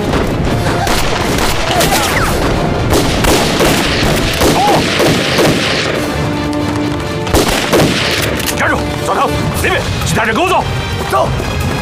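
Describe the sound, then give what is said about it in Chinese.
Gunfire in a battle scene, with many shots and booms forming a loud, dense barrage that runs through the whole clip while voices shout over it. “准备射击”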